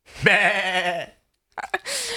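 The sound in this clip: A human voice imitates a sheep bleating: one sustained, wavering nasal "baa" of about a second, then a pause and a short burst of further vocal sounds.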